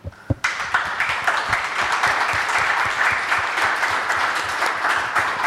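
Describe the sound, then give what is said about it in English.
Audience applause for the panelists at the close of a panel discussion: after a couple of sharp taps, dense clapping breaks out and holds at a steady, full level to the end. “If you'd like to join me in showing our appreciation for our panelists.”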